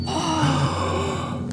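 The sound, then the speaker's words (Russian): A group of people gasps in surprise as a stolen golden apple is revealed. The sound is short and breathy and trails into a drawn-out, sighing tone. “Сунул он руку за пазуху и достал золотое яблоко. Ахнули все.”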